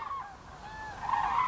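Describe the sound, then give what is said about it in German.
A large flock of geese flying overhead in a V formation gives a few faint, nasal honks over a soft outdoor background, growing a little stronger toward the end. “das ist ein riesiger Schwarm Gänse, der hier rüberfliegt.”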